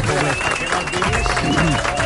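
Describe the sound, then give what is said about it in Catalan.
Audience applause for a guest: a loud, continuous mass of clapping from a crowd, with voices talking over it the whole time. “Va, que et dediquem un aplaudiment.”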